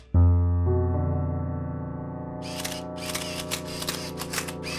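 A photographer's camera shutter clicks several times in quick bursts, layered over a steady, sustained harmonic drone that holds throughout.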